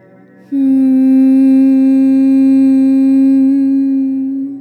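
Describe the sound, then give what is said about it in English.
Humming bumblebee breath, a yoga breathing exercise: a single low, steady, nasal hum that begins after a brief pause. It holds one pitch for about four seconds, then fades slightly toward the end. “You're gonna do 3 rounds of bumblebee breath. It's gonna sound like this.”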